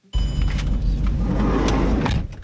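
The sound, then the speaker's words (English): A car drives up a winding hillside road near the Palestinian town of Kusra, giving a steady low engine rumble and road noise for about two seconds before easing off. “He drives us up a windy hillside road.”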